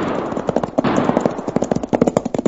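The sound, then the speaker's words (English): Gunshots crack in a gun battle, many rapid reports overlapping in a dense, loud barrage. Toward the end they break into quicker, more distinct bursts. “There are some shots, the kind I was talking about.”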